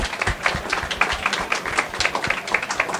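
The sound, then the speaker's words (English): Audience applause for a panel of speakers, a steady dense patter of many hands clapping at moderate loudness with no talk over it. “let's give our panelists a big round of applause.”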